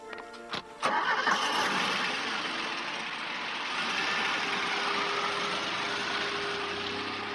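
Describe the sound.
A car engine cranks briefly and catches, then settles into a steady, loud running drone that holds for several seconds without any talk.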